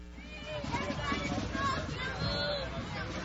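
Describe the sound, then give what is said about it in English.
Hubbub from a largish crowd gathered atop Signal Hill, a steady, fairly quiet babble of many overlapping voices with no single speaker standing out. “I'm high atop significant Signal Hill. A largish crowd here today with me witnessing this.”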